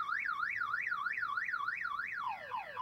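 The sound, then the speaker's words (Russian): A car alarm wails at night after the car is struck by a thrown object. A loud, rapid up-and-down warble repeats steadily, then switches near the end to a run of quick falling sweeps, with no voices. “Ночную тишину пронзил сумасшедший вой сигнализации.”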